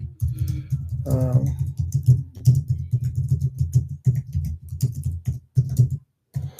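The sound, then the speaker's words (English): Rapid typing on a computer keyboard: many crisp, irregular keystrokes in quick bursts, with brief pauses and a short gap near the end, heard alone. “Excuse me while I type.”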